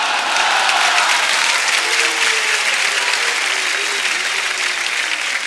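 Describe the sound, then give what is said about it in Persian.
Audience applause at a gathering: loud, dense crowd clapping that stays strong and continuous for several seconds. “بازم دست زدیم، که دست نزند اول نشد.”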